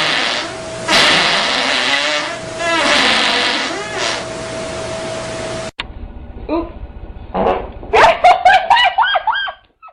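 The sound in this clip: A selection of farts: a long, noisy, hissing stretch comes first, then a run of short, buzzy, sputtering blasts in quick succession toward the end.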